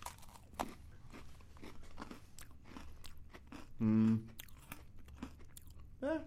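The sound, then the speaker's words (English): Chewing a deep-fried Oreo cookie: many crisp, crunchy bites and wet chomps in a quiet, uneven rhythm, broken twice by a short hummed voice, once mid-way and once at the end. “All right, try the deep-fried Oreo.”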